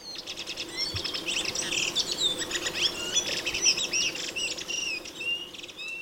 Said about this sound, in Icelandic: Þetta flókin flétta af flautum og sveiflum sem þrösturinn syngur stundum samfellt í heilar tvær mínútur.